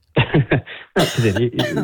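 A woman coughs loudly and hoarsely. A quick run of a few voiced coughs is followed, after a short pause, by a longer rasping fit.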